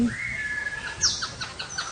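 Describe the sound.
Tropical birds chirp in a conservatory kept warm year-round. A long, steady whistle is followed by several short, high chirps and tweets over a constant background hiss.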